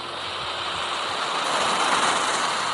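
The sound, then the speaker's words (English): A voice imitating ocean waves with a sustained breathy hiss that swells slightly in the middle, like surf washing in. “That thing with waves, it's sort of a thing that goes like,”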